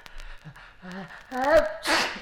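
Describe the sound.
A single human sneeze builds through a few rising, voiced catches of breath, then ends in a loud, breathy burst.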